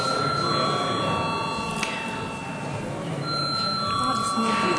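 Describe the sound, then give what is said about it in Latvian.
An electric bell rings steadily in a parliament chamber to call members to a vote. It is a sustained, high, buzzing tone that runs through nearly the whole clip over a low murmur of voices. “Mums ir jābalso lūdzu zvanu.”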